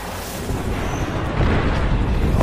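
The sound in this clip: Airstrike explosions in the Apex Legends video game during a solo ranked match. A steady, heavy rumble of blasts, loud and dense throughout, with the roar swelling slightly toward the end and no separate bangs standing out.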